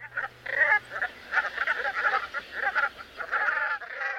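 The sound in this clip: Brant goose calling: a long run of short, gruff, croaking honks in quick, uneven bursts, many calls overlapping, with no voices.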